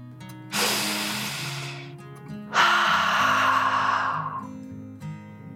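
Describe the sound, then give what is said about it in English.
A deep breath in and then out, taken during a calm children's mindfulness story: two long, airy breath sounds, each about one and a half seconds, separated by a short pause over soft, sustained musical tones. “Taking one last deep dragon breath in and out.”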